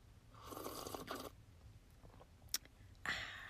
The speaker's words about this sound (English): Today we are sitting down with a cup of tea. Let's have a little ASMR.